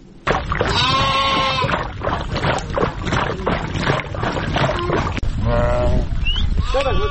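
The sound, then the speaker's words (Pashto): Sheep and goats from a nomadic herders' flock in drought-hit Afghanistan bleat in several loud, wavering calls. The calls rise over a dense, busy herd noise, with human voices mixed in. “د راپور د کوچیانو د رمو په غږ پیلېږي.”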